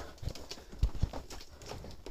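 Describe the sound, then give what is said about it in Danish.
Footsteps land on fragile wooden boards that give underfoot: a few low, hollow knocks in an uneven rhythm, two of them close together. “gøre mig et forsøg på at træde på dem. Jeg håber på, om det holder det hele her.”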